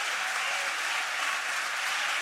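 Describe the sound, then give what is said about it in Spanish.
Parliament members rise and applaud in the hemicycle, a steady, dense roar of many hands clapping together, even in loudness throughout. “la gran mayoría se pone de pie y la aplaude.”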